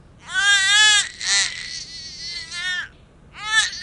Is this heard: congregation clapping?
no